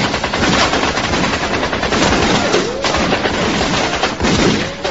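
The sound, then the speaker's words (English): Guns firing blank rounds during a staged film-set scene: loud rapid bursts of automatic fire chatter almost without pause, broken only by brief gaps before the shooting resumes. “Joker, these things are firing blanks!”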